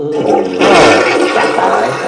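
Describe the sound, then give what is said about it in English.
A toilet flushes with a loud rushing swirl of water that surges after a brief moment and keeps churning steadily to the end. “Let's flush.”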